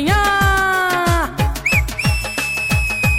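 Whistling in a song: a short, high whistle with a rising slide, then a long, steady, piercing whistle held to the end, over thumping drum beats and sustained instrumental tones.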